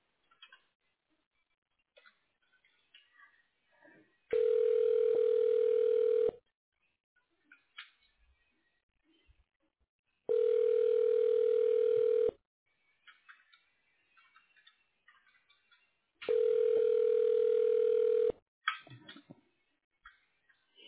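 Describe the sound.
A telephone ringback tone plays while a call is transferred to voicemail: three long, steady, mid-pitched tones, each about two seconds, separated by roughly four-second gaps of near silence with faint line noise.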